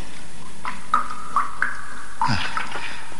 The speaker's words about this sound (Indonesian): Tetesan air yang jatuh membentuk sungai kecil.